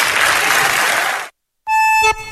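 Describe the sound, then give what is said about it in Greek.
An audience applauding: dense, even clapping that holds steady for over a second and stops abruptly, followed after a brief gap by sustained musical tones. “Αυτό που με ενθουσιάζει είναι το χειροκρότημα από κάτω βέβαια”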